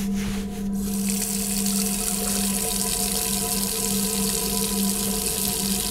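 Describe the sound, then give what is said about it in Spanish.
Tap water runs into a bathroom sink while someone washes. A steady, loud, hissing rush continues without a break for the whole stretch, with no voices. “Comienza a quitarse la playera y decide lavarse en el lavabo.”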